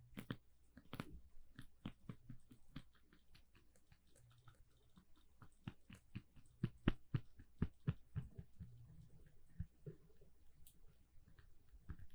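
Someone bites and chews a banana, making many soft, wet crunches and smacks in an irregular rhythm, faint and close, with no talk.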